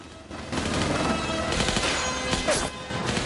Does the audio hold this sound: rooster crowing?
no

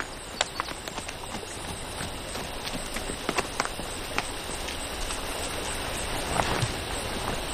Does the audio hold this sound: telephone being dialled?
no

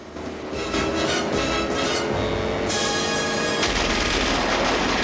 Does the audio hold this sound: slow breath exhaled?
no

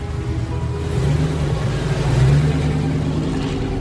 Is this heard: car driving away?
yes

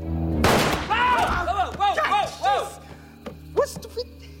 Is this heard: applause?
no

